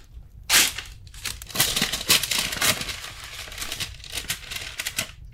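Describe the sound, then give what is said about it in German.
Paper crinkles and crackles as someone handles a paper envelope: a steady stream of dry rustling with many sharp crisp snaps and tearing-like bursts, moderately loud and with no talking. “Dann gib mal hier den Umschlag her.”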